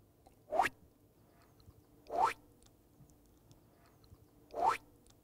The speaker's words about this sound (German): Doch es steckt ja noch mehr dahinter, zum Beispiel die passenden Geräusche. Ganz besonders wichtig, der Sprung.